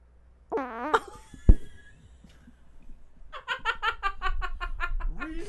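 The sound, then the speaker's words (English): A fart blown into a microphone: a short, buzzy, rasping burst, then a sharp thump and several seconds of giggling and chuckling laughter. “Do not fart into the microphone. Why not? Did you?”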